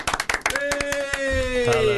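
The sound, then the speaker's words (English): Hand clapping welcoming a guest: a few sharp claps at the start, then sparser claps continue beneath a sustained whistle-like tone that slowly falls in pitch. “Please give a warm round of applause to Duncan”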